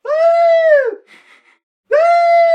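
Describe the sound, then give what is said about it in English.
A voice imitating the Rebel Yell battle cry: two long, high, wavering wails separated by a brief pause. The first trails off with a falling tone and a ragged breathy end. “you can read a lot about the Rebel Yell because people really do attribute it to the South winning, when it really it just sounds like a bunch of Cats in Heat”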